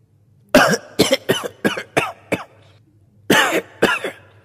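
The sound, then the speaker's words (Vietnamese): An old man coughs hoarsely in a rapid string of harsh, raspy coughs, then pauses briefly before two more coughs. “Nói xong lại ho sù sụ.”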